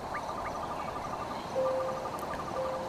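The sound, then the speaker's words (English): Faint night chorus of insects and frogs in a Mississippi swamp: a steady hiss of chirring with a few short rising chirps and thin, sustained whistling tones. “from the applause of the great crowd to some frog-drenched swamp in Mississippi.”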